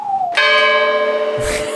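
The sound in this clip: A single bell strike rings out with a bright, sustained metallic tone and clear overtones, following a short descending tone. A low thump sounds near the end while the bell keeps ringing.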